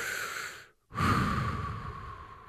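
A deep breath breaks off into a brief silence, then comes back as a louder, long, airy rush of breath that slowly fades, with no talk over it.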